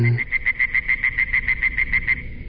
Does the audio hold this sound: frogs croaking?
yes